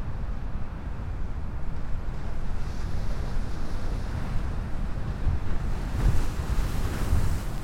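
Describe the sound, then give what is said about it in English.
Ocean waves wash against the tip of a nearly mile-long jetty where the Columbia River meets the Pacific in Washington State: a steady, dense roar of surf with wind noise and a few heavier swells near the end, no voices. “We're sitting at the very end of the near mile-long jetty at Cape Disappointment State Park in Washington State. The jetty funnels the northern shore of the Columbia River out into the Pacific Ocean”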